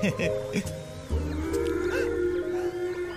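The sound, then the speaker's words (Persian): A whale calling close by: low, moaning tonal calls that slide in pitch, settling into a long, steady drawn-out note, with a few higher sweeping tones above. “این نهنگ آموراه، حتما خیلی نزدیکه.”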